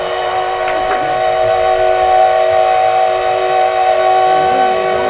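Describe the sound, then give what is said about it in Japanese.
Steam locomotive whistle at the start of a train trip: a long, loud, steady tone rich in harmonics that is held through the whole stretch, with no voices. “汽笛が鳴りました。長い余韻を引いて今汽笛が鳴り終わりました。素晴らしい汽笛でした。”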